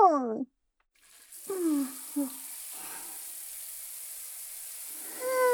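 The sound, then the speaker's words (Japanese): Running shower water starts abruptly as a steady, even hiss and keeps flowing. A voice is heard just before it begins and again briefly over the spray. “あったかーい。シャワーを作った人に感謝って感じ。世紀の大発明だよね。”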